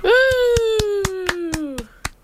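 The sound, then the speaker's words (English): Audience members clap in a quick, steady run of sharp, evenly spaced claps, joined by a loud, sustained whoop that slowly falls in pitch and fades before the last claps. “But as a supporter, now you may start clapping.”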